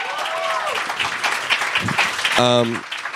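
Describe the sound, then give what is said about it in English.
An audience at a live event at the Soho House applauds and cheers, a steady wash of clapping with a voice calling out over it near the start and again toward the end. “Let's make some noise for Langston one time, y'all.”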